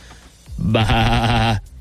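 A sheep gives one loud, wavering bleat lasting about a second, with a low, slightly nasal tone and no talk over it.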